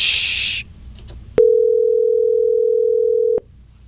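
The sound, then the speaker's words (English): Telephone tone while dialing a call: a single steady, loud mid-pitched tone holds for about two seconds, then cuts off abruptly, following a short burst of hiss and a few faint clicks. “It's very difficult to talk and dial at the same time.”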